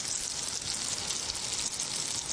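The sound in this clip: Shrimp fry in hot oil kept not too hot at first, giving a faint, steady sizzling hiss that carries evenly through the whole moment with no talk.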